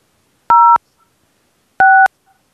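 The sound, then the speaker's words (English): Two loud telephone keypad tones, each a short steady dual-pitched beep with a pause between, dialed on a motel's automated phone system in Panama City Beach, Florida. “If you know your party's room number, please dial it now. Oh. For the front desk, dial 0. Thank you. Let's try a number.”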